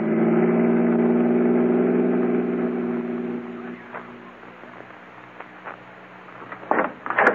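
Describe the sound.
A car engine drones steadily with a low, even hum while driving. After a few seconds it fades to a softer rumble, and a few sharp clicks and knocks come near the end.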